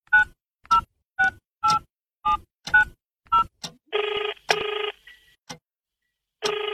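A telephone number is dialed as a quick series of short keypad beeps, followed by longer, louder ringing tones with gaps between them, with no voices.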